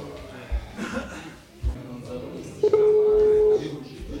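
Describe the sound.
A telephone tone sounds as a call is placed: a single steady, mid-pitched beep lasting about a second, preceded by people talking and a few soft bumps, then a brief murmur after.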